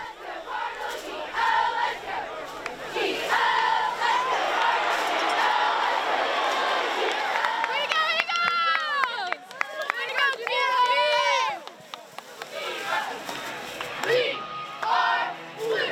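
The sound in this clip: Cheerleaders chant and a crowd cheers at a Texas high school football game: loud, rhythmic shouted chants rise over a steady roar of many voices, with a few sharp, high yells standing out near the middle.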